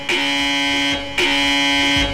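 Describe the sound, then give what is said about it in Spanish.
Two long electronic alarm buzzes, each a harsh, steady, droning tone lasting about a second, separated by a brief gap and played alone at a loud, even level. “Esa alarma me pone nerviosa, sí.”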